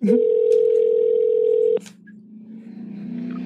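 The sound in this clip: A telephone dial tone while calling back a caller: a loud, steady tone holds for nearly two seconds, then a click cuts it off and a quieter low hum follows.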